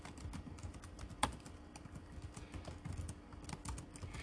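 Rapid typing on a computer keyboard, a steady stream of many light key clicks with a few sharper taps, fairly faint and with no talk over it.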